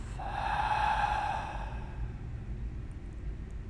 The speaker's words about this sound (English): And we take together three deep breaths in through the nose, out through the mouth.